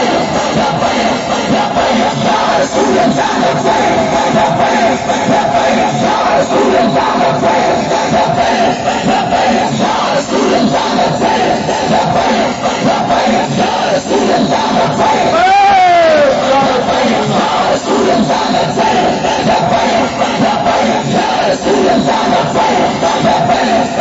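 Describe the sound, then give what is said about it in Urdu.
A large crowd chants the religious slogan Labbaik in loud, massed voices that hold steady with no break across the whole stretch. “لبیک دا نعرہ پکا کے جانا ہے اے سیاسی نہیں اس تو بڑا مذہبی نعرہ ہی کوئی نہیں”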